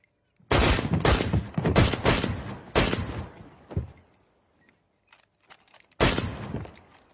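Gunshots ring out in a rapid volley of several loud, sharp cracks, followed by a few fainter scattered pops and then one more loud shot after a pause.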